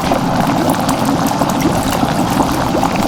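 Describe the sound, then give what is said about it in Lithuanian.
Water boiling in a kettle, a loud, steady rushing bubble that holds an even level throughout without pause. “Ne, atpažinote, kas tai yra per garsas, tai yra verdančio vandens virdulyje garsas.”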